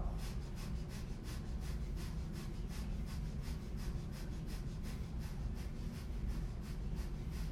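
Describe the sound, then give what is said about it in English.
Quick rhythmic breathing in and out through the nose like a bunny during a chair yoga exercise: many rapid, evenly spaced nasal puffs over a steady low background, continuing without pause. “we're going to try and breathe like a bunny in and out through the nose”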